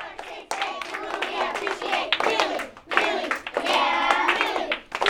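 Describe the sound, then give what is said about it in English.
A class of third graders claps and shouts to pump each other up at the start of the school day, with quick bursts of rhythmic clapping mixed with loud, excited children's voices. “That's the sound of third graders pumping each other up to start the day.”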